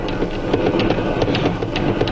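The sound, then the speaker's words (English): An engine rumbles loudly as a staff car slushes and jolts along a muddy road on a rainy afternoon. A steady droning roar carries irregular rattles and knocks throughout, with no voices. “found ourselves in the front seat of a staff car, slushing and jolting its way towards the battlefield.”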